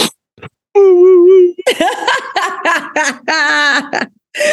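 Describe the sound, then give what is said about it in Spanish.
A man imitates crying on request, a performed sob rather than a real one: a long, steady wailing tone, then many short, broken sobbing bursts. “Vas a tener que llorar, literal, así, like... Ok. A ver, llora.”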